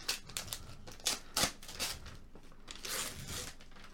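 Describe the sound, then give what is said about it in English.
Nice wrapping paper is torn off a gift, with faint, rapid crinkling and ripping bursts that come in uneven clusters, some sharper tears standing out. “All right, let's destroy this nice wrapping.”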